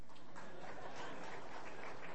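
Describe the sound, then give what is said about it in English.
An audience clapping during a church sermon: a faint, dense, continuous patter of many hands at a steady level throughout. “You're supposed to clap at the end of the sermon.”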